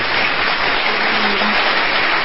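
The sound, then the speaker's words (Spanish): Applause for a teacher: a steady, dense wash of clapping holds at an even, fairly loud level for the whole stretch, with no distinct single claps standing out and no talk over it. “Un aplauso para ella, por favor, Maribel Sierra”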